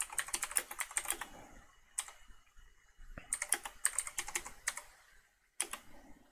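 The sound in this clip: Rapid typing on a computer keyboard, crisp clicks in several quick bursts separated by short pauses, clear and alone with no voices.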